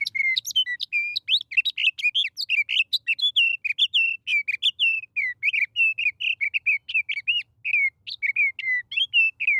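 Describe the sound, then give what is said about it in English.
A sage thrasher sings from atop a clump of sagebrush, pouring out a long, unbroken stream of rapid, high, warbling notes and trills. The clear phrases tumble one after another throughout, with no voices. “When a sage thrasher, perched atop a clump of sagebrush, tips its head back to sing, the notes rush forth.”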